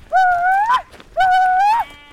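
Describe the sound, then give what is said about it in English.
Chiro sheep from a flock being driven up the mountains to a summer sheep camp, bleating twice in loud, quavering, high-pitched calls of similar length separated by a short pause. “Navajo weavers are bringing a flock of Chiro sheep up the mountains to a summer sheep camp on top.”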